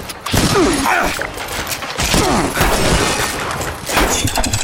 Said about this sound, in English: These little robots are shooting lasers at me.